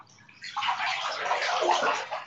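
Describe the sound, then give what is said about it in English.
A large bathtub filling with water, with a steady rushing, splashing flow that runs continuously and evenly from start to end. “It's just such a big bathtub that like it takes a really long time to fill. I'm gonna add a bit more water.”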